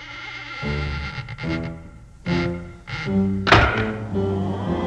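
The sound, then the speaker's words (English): Coffin lids closing: several heavy, hollow wooden thunks come one after another, each a dull low knock, with sustained tones ringing between them. “Party's over, boys. So close those coffin lids.”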